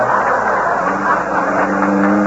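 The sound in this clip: A car engine hums steadily during a ride, a low, even drone that holds without change.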